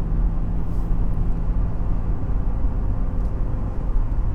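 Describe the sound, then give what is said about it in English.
Car engine running in fifth gear at 3,000 RPM, taking a corner at about 100 km/h; a loud, steady low drone with road rumble, unbroken throughout. “In fifth gear, into the corner, 100 kilometers an hour, 3,000 RPM.”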